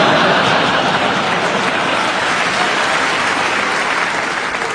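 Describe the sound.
Audience applause greeting introduced guests: dense, loud, continuous clapping that holds steady from start to finish without a break or any voices.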